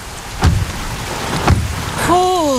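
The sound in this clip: Heavy rain pours down during a thunderstorm on the first day of autumn in Mažeikiai, Lithuania. A steady hiss of rain runs throughout, with two short, low, booming crashes, and a wavering tone appears near the end.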